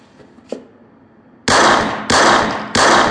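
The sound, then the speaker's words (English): Gunshots are fired at a target: three loud, sharp blasts at fairly even intervals, each ringing briefly before the next, after a faint click near the start. “Here, give me your gun. Step aside.”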